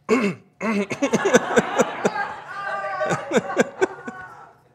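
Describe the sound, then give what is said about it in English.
A voice imitates someone clearing their throat: a long run of short, rasping, guttural bursts in a quick, uneven rhythm, fairly loud and with a brief pause near the start. “You know, clearing one's throat.”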